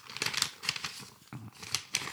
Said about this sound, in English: Get some of that good envelope noise.